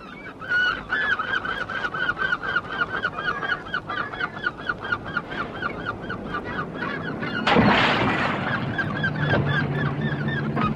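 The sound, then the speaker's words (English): Seagulls calling overhead above a bridge over the Thames, with many rapid, repeated, harsh honking cries in a steady stream, moderately loud and with no talk. “He stands on a bridge as seagulls fly overhead.”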